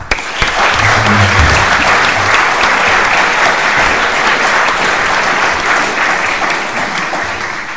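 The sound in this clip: Loud, dense applause from a lecture audience at a London School of Economics global governance event, welcoming a speaker to the stage. Steady clapping carries through the whole clip and eases slightly at the end.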